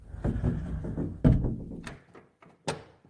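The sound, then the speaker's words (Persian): A closet door being shut and locked gives off a series of soft wooden thuds and clicks amid light rustling, with a sharper knock near the end. “لطفا گذاتو توی گنجه بذارید در گنجه رو هم قفل کنید”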